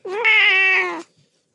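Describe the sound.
A single cat meow lasts about a second, clear and tonal with a bright, slightly wavering pitch, then ends with a faint trailing sound.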